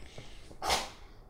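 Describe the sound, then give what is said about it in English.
A dog gives a single short, sharp sneeze, a breathy burst that stands out briefly against a quiet background. “That was our dog sneezing, if you didn't notice.”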